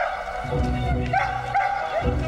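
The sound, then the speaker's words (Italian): A dog barks and yips in a few short, high-pitched bursts over a steady low background rumble. “Andate via, vai via cane, vai via.”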